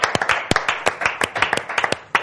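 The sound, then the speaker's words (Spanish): Applause from an audience welcoming two guests: a quick, uneven run of sharp, distinct claps that sounds like only a small number of hands. “Un aplauso para ellos.”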